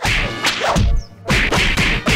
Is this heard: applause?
no